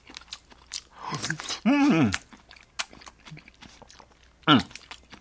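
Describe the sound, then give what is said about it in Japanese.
Chewing and crunching as cherry tomatoes spread with tartar sauce are eaten: a few soft bites and wet mouth sounds, with brief hummed vocal murmurs in between. “これせっかくですから、このね、3つの ミニトマトもタルタルをちょっと塗りながらいただきましょう。”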